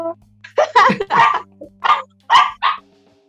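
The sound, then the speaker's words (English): Small Shih Tzu dogs barking in a quick run of several sharp, high yaps and yips, some clustered close together and others spaced apart, over a low steady hum. “Ito yung mga aso mo dyan.”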